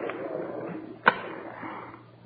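A lighter gives a single sharp click as a cigarette is lit for someone, a brief snap standing out against a quiet, low background hum.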